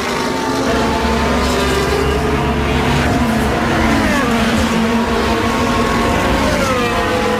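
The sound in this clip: Carlos Sainz's Formula 1 car makes a pit stop on lap 16 of the 2023 Hungarian Grand Prix, giving a loud, continuous engine drone with shifting harmonics that holds from start to end.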